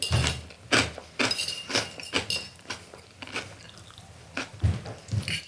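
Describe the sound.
A pincho is eaten with cutlery: many crisp clinks and crunchy bites at an irregular pace, fairly quiet, with a soft chewing texture between the taps and no talking.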